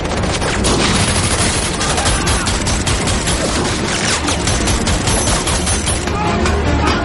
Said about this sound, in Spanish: Unos guardias comienzan a montar una de las grandes ametralladoras y a disparar contra vagón tras el que se ocultan.